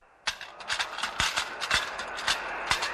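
Horse hooves clip-clop in a steady, brisk rhythm of sharp knocks, many strikes in quick succession over a faint low rumble.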